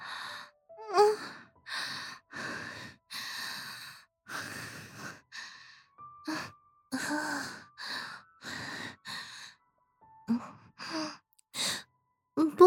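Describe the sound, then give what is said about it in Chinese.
Deep gasping breaths and heavy sighs from a person gulping air uncontrollably amid a foul stench, many loud, breathy inhalations and exhalations in an irregular series, separated by brief silences. “这么臭的味道，我却是控制不住的大口吸气。”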